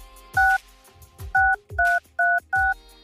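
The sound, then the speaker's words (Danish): Telephone keypad tones: five short, clear dual-tone beeps at an even pitch, each starting with a soft low click, spaced in an uneven rhythm with brief quiet gaps between them. “det er bare et opkald, man ikke vil miste det”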